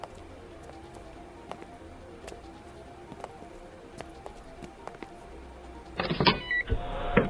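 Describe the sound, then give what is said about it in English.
A panel being shut: quiet ticking and faint clicks, then a short, loud mechanical whirring and scraping burst near the end. “Let me just close this panel.”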